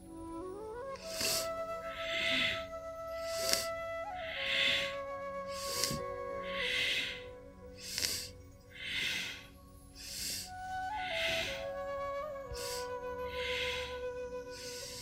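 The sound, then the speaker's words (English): Quick breaths in and out during a guided pelvic breathing exercise, with many short airy puffs in a steady, fast rhythm over sustained background music. “Inhale, exhale. Inhale, exhale. A little quicker now.”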